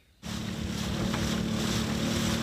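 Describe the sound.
Engine drone of a longtail boat on Songkhla Lake starts abruptly and settles into a loud, constant low hum with a steady rushing wash of water over it.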